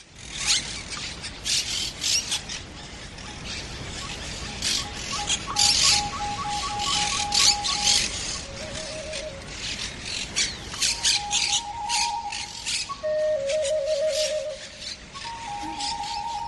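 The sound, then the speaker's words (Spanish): Monk parakeets, the green-blue Argentine parrots flocking in a city neighbourhood, squawk constantly. Harsh, raspy calls overlap in a continuous noisy chorus, with some shriller, more tonal cries standing out in the second half. “En mi barrio hay montones de cotorras argentinas, de esas verdiazules, que sí, son muy bonitas, pero plantean enormes problemas. Para empezar, una escandalera constante”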